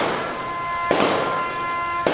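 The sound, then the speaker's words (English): A ceremonial rifle salute at a 9/11 memorial service at a war memorial center on a rainy morning: two sharp, loud volleys about a second apart, with held bugle tones of taps underneath. “As taps played and a rifle salute rang out on a rainy Monday morning at Milwaukee's War Memorial Center,”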